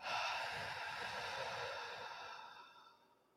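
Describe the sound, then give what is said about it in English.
A long, breathy grounding breath during a guided chakra meditation, loud at first and then fading softly over about three seconds, heard alone with no talking. “And we're going to take three grounding breaths. So we're going to breathe in and out.”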